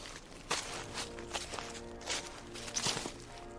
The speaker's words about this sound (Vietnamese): Là tiếng sột soạt từ tất cả các vị trí, là tiếng bước chân giò dẫm vang lên không ngừng.